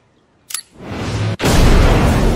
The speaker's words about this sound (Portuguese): Na hora que eles explodem a bomba dentro do homem invisível lá, como é?